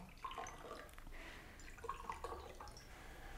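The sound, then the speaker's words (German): Whisky being poured into a glass: a soft, steady trickle of liquid with a few light drips and faint glassy tones, fairly quiet throughout. “Haben Sie was dagegen, wenn ich mir auch einen Whisky einschenke?”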